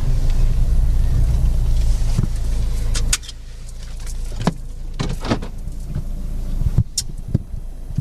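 A car pulls over: steady engine and road noise runs for a few seconds, then drops away abruptly, followed by scattered clicks and knocks from inside the stopped vehicle.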